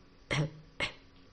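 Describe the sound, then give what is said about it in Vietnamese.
Two short, dry coughs from a man recovering from a wound, separated by a brief pause, fairly quiet and with nothing else around them. “ho khan hai tiếng”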